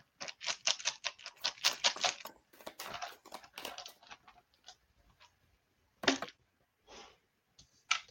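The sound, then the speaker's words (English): Rune stones click and rattle as one is drawn for a divination reading. Many quick taps and clatters come in dense bursts, then thin out to a few sharp clicks separated by pauses, with no voices. “So we got the card. We're going to draw the rune now.”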